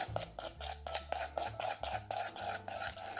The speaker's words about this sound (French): Je mélange encore.